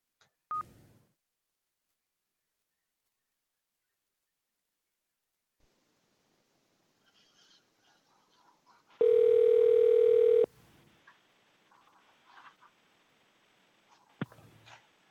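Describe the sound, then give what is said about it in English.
Telephone dialing: faint scattered key tones and clicks, then a loud steady telephone tone holds for about a second and a half. Quieter clicks and rustling follow. “And while we'll dial the number”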